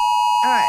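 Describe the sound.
Australian emergency alert test tone sent in South Australia, a steady, loud, high electronic tone held throughout, with a voice beginning to talk over it partway through.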